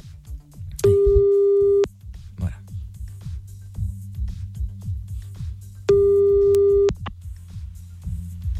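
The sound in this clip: Telephone ringing tone on a line as a call is placed late at night: two steady, mid-pitched one-second beeps separated by a few seconds, heard over a busy, low rumbling background.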